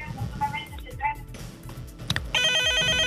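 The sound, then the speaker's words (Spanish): A telephone rings with an incoming call: a steady, bright electronic ringing tone starts near the end and continues to the close, following a stretch of talking. “Tenemos otra llamada en la línea.”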